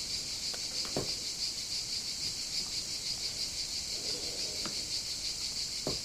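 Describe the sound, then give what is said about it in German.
Crickets chirp steadily on a Greek island, a continuous high, buzzing trill that holds evenly throughout. A few faint, brief clicks sound beneath it. “vielleicht hört ihr die Grillen im Hintergrund.”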